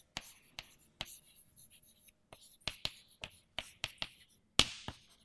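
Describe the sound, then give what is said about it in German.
Writing on a board: many short, sharp strokes and taps in an irregular rhythm, crisp and fairly faint with quiet gaps between them. “Ich schreibe einfach mal hier in molekulare Zustände.”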